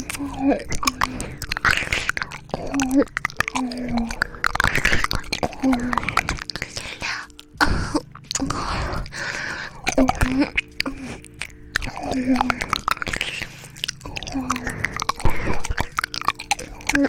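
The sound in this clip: Chewing and biting on a steamed meat bun: a steady run of many soft, moist bites and chews repeating in an even rhythm, fairly close and clear throughout.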